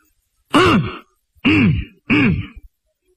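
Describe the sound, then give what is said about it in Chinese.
A voice imitates coughing with three throaty, voiced coughs in slow succession. Each cough is a loud, clipped burst whose pitch rises and then falls, with short gaps of silence between them. “阎婆惜咳嗽一声，宋江也咳嗽一声”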